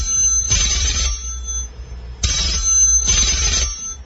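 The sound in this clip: Telephone ringing at the start of a phone call, sounding as a few short electronic ringing bursts separated by brief gaps.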